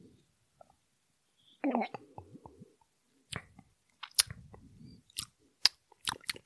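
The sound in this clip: Mouth sounds from tasting a double-fermented organic mid-strength beer: a faint sip and a short murmur, then scattered wet lip smacks and clicks.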